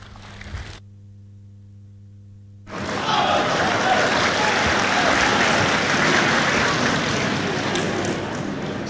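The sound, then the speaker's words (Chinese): Applause from a live audience at a crosstalk comedy show in Beijing, thin and scattered, breaking in after a brief quiet stretch and then holding steady to the end. “谢谢您这么稀稀拉拉的掌声”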